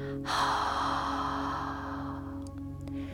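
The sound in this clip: A deep breath during a guided breathing exercise: a long, airy rush of air that swells early and then slowly tapers off, over a steady sustained musical drone.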